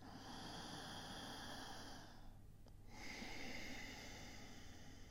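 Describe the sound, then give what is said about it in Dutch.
Breathing through a slightly narrowed throat, like drawing air through a straw, makes a soft, quiet rushing. There are two breaths with a short pause between them, and a faint low hum sits steadily underneath. “Het effect geeft een licht ruisend geluid in de keel, zowel bij de in- als bij de uitademhaling.”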